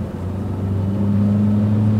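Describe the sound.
A motor skiff runs across the water near a mangrove island in Florida Bay. Its engine gives a steady, loud, low drone that grows slightly stronger as it goes, with no voices.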